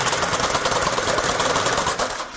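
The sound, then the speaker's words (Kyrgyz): A knitting machine running: a rapid, continuous mechanical clatter at a steady pace, busy and fairly loud throughout, easing slightly at the very end. “Азыр 2-ден токуп атам.”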